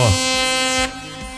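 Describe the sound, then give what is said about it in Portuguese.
Truck horns blare in a honking salute to truck drivers: a loud, sustained, buzzy horn blast holds steady for most of a second, then cuts off and leaves a quieter tone, with voices present. “aos nossos caminhoneiros, a nossa saudação e carinho, e vai o buzinaço!”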